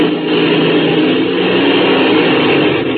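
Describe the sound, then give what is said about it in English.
An airplane taxis fast across a soft lake bed, its engine giving a loud, steady, unbroken roar that holds at an even level throughout. “We're hitting that soft spot on the lake bed. I'm going to taxi real fast.”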